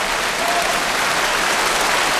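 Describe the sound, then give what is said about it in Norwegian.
Audience applause at an awards acceptance, a dense, steady wash of clapping that stays loud and even for the whole stretch, with no clear voices on top. “Ja, jeg tenker at det hadde vært enda mer applaus da, og litt mer latter der på de morsomme poengene mine der.”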